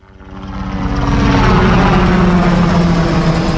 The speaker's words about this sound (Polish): Przyleciał już śmigłowiec wojskowy, Sokół, taki typ, jaki my używamy.